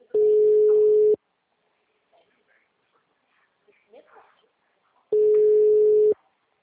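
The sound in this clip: Telephone ringback tone of a call ringing: two steady, mid-pitched tones, each about a second long, separated by roughly four seconds of near silence with only faint scattered sounds.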